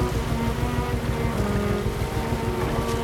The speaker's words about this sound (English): as the barge, the Atlantic Eve, makes its way along the narrow canal waters.